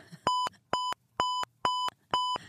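A checkout scanner beeps five times, each beep a short, bright, high electronic tone of equal length, evenly spaced with silent gaps between.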